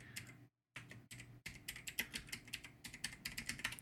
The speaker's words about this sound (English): I'm going to type real quick. You're going to hit clickiness.